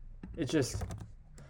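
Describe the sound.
Typing on a computer keyboard, a quick, faint run of soft key clicks.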